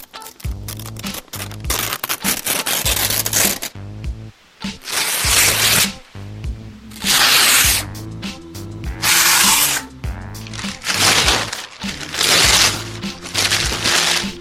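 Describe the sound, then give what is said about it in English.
Ripping sound effect of paper being torn and wadded up: many loud, crackling bursts of tearing and crumpling, broken by short pauses, with no voices. “I've got a ripping sound effect. It goes on for a minute. And it sounds like there's, like, wadding up paper and stuff.”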